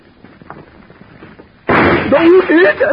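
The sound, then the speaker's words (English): A gunshot sends a bullet crashing into a glass showcase. After quiet murmuring, a sudden loud burst erupts halfway through and continues as sustained noisy crashing, with a voice crying out over it. “The killer's bullet had crashed into a showcase.”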